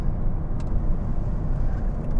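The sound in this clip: Steady rumble of a car driving after a double-clutch shift into second gear with light throttle, heard at the rear wheel: a dense, continuous low engine and road roar with no voices.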